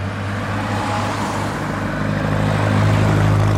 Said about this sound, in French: On roule pour traverser la province de Misiones.